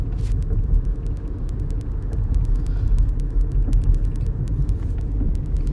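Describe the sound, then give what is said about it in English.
Road noise heard from inside a moving car: a steady, loud low rumble throughout, with many faint, sharp ticks scattered above it. “Don't mind the noise in the back. I'm driving”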